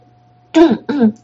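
Dry cough and throat clearing from a young man, voiced by a performer: two short, rasping bursts in quick succession, the second a little longer, fairly loud over a faint steady hum.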